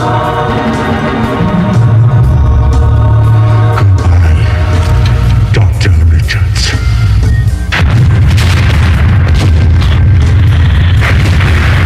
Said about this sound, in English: the best part is when it explodes